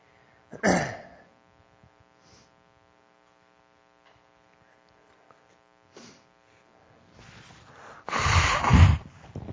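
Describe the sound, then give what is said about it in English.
Nose blowing: a short snort early on, a few faint sniffs, then a long, loud, rough blow near the end, with a steady low mains hum underneath throughout. “I'm just going to blow my nose.”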